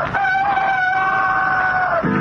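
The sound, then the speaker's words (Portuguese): A rooster crows at dawn, one loud, drawn-out tonal call lasting about two seconds that holds a steady pitch and then dips slightly as it ends. It is heard alone. “A gente pensa que ao romper do dia, o galo canta pra saudar o sol.”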